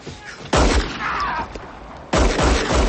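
Gunshots fired at a man trying to escape from a van on a road ring out as loud, sharp blasts in two bursts, each followed by sustained rumbling noise.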